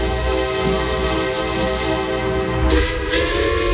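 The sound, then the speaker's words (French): A train entering a station gives a loud, steady, rumbling roar with sustained tonal whistle-like lines running through it and a sharper burst near the end, with no talk. “Le train entre en gare”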